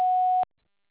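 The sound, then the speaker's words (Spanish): A voicemail recording beep sounds: one steady mid-pitched electronic tone, loud and clean, holding for just under half a second before cutting off into silence. “Después del tono, grave su mensaje.”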